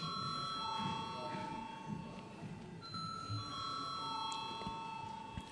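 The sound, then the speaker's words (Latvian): A bell rings in a parliament chamber to call members to a vote. Steady, sustained tones carry through the whole clip over a low murmur of voices. “Lūdzu zvanu.”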